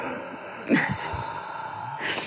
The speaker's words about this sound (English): Deep breath. Except I have an asthmatic, so my shit just sounds like a horror movie.